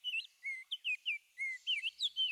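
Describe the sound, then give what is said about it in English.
Song of a Baltimore oriole, with many short, clear, high whistled notes, some sliding, delivered in a quick, uneven rhythm with brief gaps and no other sounds. “One is orange and even has an aristocratic name, the Baltimore Oriole.”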